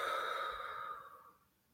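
A deep, audible breath out during a guided breathing exercise: one long, airy exhale that starts fairly strong and gradually fades away to near silence.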